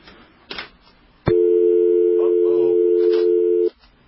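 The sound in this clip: A telephone call fails to connect: one long, steady tone holds for over two seconds, with faint talk just before it and a soft click at the end.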